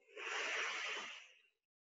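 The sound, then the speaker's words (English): One slow exhale through a single nostril during alternate nostril breathing: a soft, airy hiss lasting about one and a half seconds that tapers off into silence. “Seal off the other nostril Release the thumb, exhale.”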